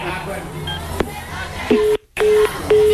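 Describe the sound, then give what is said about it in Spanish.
Keypad tones of a telephone number being dialed: a few short, steady electronic beeps in the latter half, separated by a brief silent gap, over a background of crowd chatter and voices. “Ahorita le vuelvo a marcar, a ver qué dice.”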